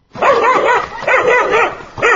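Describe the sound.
A dog barking in a mountain village at 1800 metres, where wolves prey on livestock. Three loud, drawn-out, wavering barks follow one another with almost no pause, and the last one is cut off.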